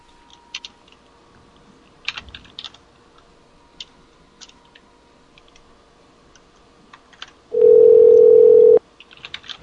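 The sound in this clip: Telephone dial tone, a steady single pitched tone lasting over a second, heard while redialing a radio guest after the line cut, preceded by scattered light clicks and taps of typing.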